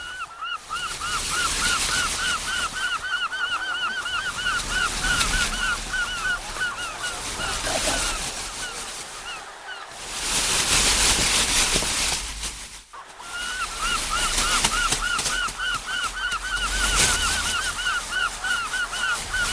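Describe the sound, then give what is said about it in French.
Gulls cry at a beach over big waves: many short, high, chattering calls repeat throughout against a constant broad rush of surf that swells louder around the middle. “À la plage, il entend les grosses vagues et les mouettes qui crient.”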